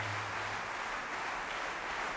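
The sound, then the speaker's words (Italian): The audience at a classical orchestral concert in Montpellier gives warm, prolonged applause after the performance. The clapping is steady and dense, fairly faint, and does not pause. “e abbiamo ascoltato anche gli applausi calorosissimi del pubblico di Montpellier, che sta ancora salutando con delle vere e proprie ovazioni”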